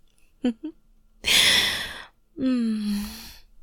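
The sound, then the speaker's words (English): Heavy breaths exhaled onto someone in an intimate scene: a couple of short vocal sounds, then a long breathy exhale and a voiced sigh that falls in pitch. “How do you like it when I breathe on you like this?”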